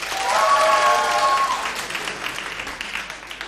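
Audience applause as listeners vote by clapping for which song a band should play at a live concert, steady clapping that holds for a few seconds and then thins slightly.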